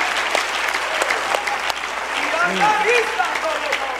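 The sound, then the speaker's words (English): A church audience at a religious conference claps hands in praise, a steady wash of applause with voices calling out underneath. “Clap your hands and praise Him.”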